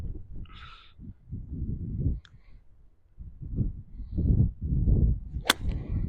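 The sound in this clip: A golf club strikes a ball with a three-quarter swing on a course in the Algarve, a single sharp crack standing out above a low, uneven rumble of background sound.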